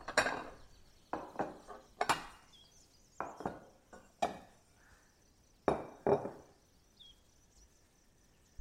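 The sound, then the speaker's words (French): Plates clink and knock as they are set out on a counter for plating a meal, a series of sharp, irregular ceramic taps separated by quiet gaps, with no voices. “Je vais préparer pendant ce temps-là mes assiettes pour mon repas. Comme on va faire un petit dressage, je peux déjà étaler mes assiettes.”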